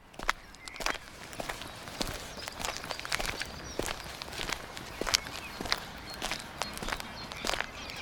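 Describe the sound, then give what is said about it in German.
Footsteps walk along a riverbank in a steady, even rhythm, with many crisp, fairly quiet steps and no voices. “Gehen wir noch ein Stück am Ufer entlang.”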